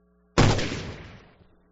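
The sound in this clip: One sudden loud gunshot, fired by one man at another, bursts out of near silence and leaves a long, slowly fading tail. No voices are heard.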